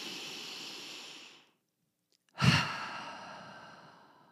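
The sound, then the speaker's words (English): A deep breath is drawn in and let out. A long airy inhale fades away into a moment of silence, then a forceful breathy exhale starts strong and tapers off. The breathing is quiet overall, with no talk. “Let's take a deep breath together. Ready? Okay, deep breath.”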